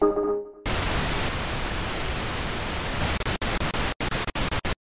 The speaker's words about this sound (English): Static frequencies, engage.